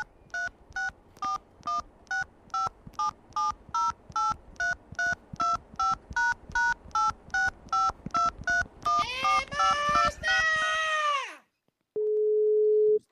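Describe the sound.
Telephone keypad tones dial a long phone number: many short, evenly spaced beeps in a steady rhythm, then a warbling electronic line sound and, after a brief gap, a steady single tone.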